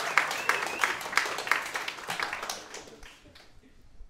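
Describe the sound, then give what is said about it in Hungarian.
Audience applause in rhythmic, evenly spaced claps that gradually thin out and fade to near quiet by the end. “Tapsoljuk meg, mert ez... Tapsol.”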